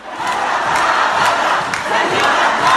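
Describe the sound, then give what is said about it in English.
A concert audience at the American University of Beirut shouts in unison, chanting "Revolution" at former leader Siniora. The chant is a loud, continuous roar of many voices with a repeating rhythmic surge. “Dozens of people in the audience started taunting the former leader, chanting, "Revolution, revolution."”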